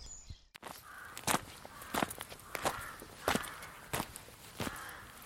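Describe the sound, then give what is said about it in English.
Footsteps walk into gardens, with several evenly paced steps crunching in a steady rhythm throughout. “Here we're walking into the gardens, literally within about 10 feet of where in 1990 I cut my way in”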